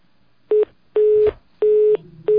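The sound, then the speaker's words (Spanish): Telephone line tone after a dropped call: four evenly pitched beeps with short silent gaps between them, the last one cut off at the end, with no voices. “Bueno, se perdió esta llamada, esperamos que vuelvan a intentarlo.”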